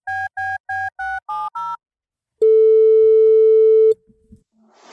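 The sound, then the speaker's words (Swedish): Telephone tones while placing a call: six short electronic beeps, the later ones higher in pitch, followed by a long steady tone and then a brief clatter and soft hiss. “vill vi inte ringa Kristoffer lite? Jo, det måste vi faktiskt göra. Ja, vi gör det.”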